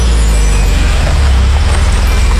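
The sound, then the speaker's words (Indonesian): Steady, loud low rumble of road traffic in a jam with buses and cars, a dense continuous engine drone with no clear breaks. “Kok ada macet-macetan gini? Cepet dikit bisa gak sih?”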